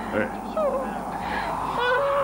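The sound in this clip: A young monk cries in high, wavering whimpers and sobs that rise and fall. The crying is moderately loud and mixed with a voice.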